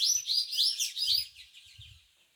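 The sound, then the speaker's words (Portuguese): Small birds chirp and sing in an indigenous village in Pernambuco, Brazil, with a quick run of bright, high, overlapping tweets that grow fainter and fade toward the end. “Pernambuco, onde os passarinhos são trilhas sonoras que abrem nossa ciranda.”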